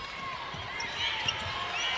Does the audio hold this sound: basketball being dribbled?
yes